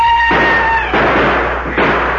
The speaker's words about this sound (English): as he went down, the door burst open, and Tonto led the reinforcements with a war cry.